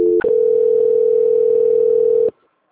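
A telephone line gives a transfer tone: a brief blip, then one steady, mid-pitched electronic tone held for about two seconds before it cuts off abruptly into near silence.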